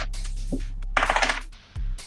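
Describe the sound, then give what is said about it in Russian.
A die rattles and clatters onto a table during a tabletop role-playing game, a short burst of small, quick clicks. Brief voices come just before and after the roll. “Кидай кубик.”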